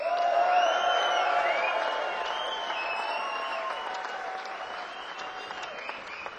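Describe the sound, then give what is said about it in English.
A concert crowd applauds, cheers and whoops for a Grammy-winning drummer from Atlanta, Georgia, during band introductions. The clapping is loudest at the start, then eases gradually to a lower, steady level while scattered whoops continue. “please put your hands together, make a lot of noise for the Grammy Award winning Jan Rico Scott.”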